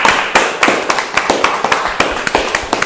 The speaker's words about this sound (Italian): Un applauso a noi stessi.